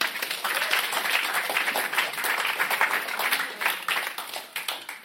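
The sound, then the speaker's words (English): Audience applause in a church service, steady dense clapping at moderate loudness sustained through the whole stretch with slight swells, no voices standing out above it. “You give them a round of applause”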